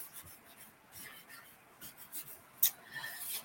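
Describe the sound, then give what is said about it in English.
A pen scratches across paper as a name is handwritten, soft uneven strokes and scrapes in a steady rhythm, with one sharper scratch near the end. “I feel like I have to write the whole name tonight. Let's see what I get for you.”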